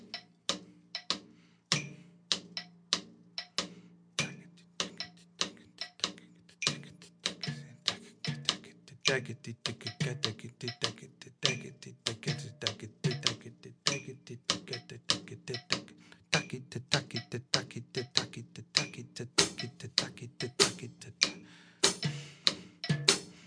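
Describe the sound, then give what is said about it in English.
A metronome ticks in a quick, even stream of many crisp clicks, with louder accented beats at regular intervals. It is fairly quiet, with low tonal notes sounding beneath the ticking. “Now I'll just comp what the metronome's playing.”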